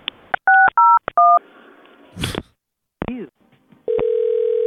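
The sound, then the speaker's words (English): Telephone keypad tones as a call is transferred: three quick electronic touch-tone beeps with clicks, a brief noisy burst and chirp, then a steady, continuous tone on the line. “Okay, hang on just a second. I'll transfer you to his line. To his voicemail.”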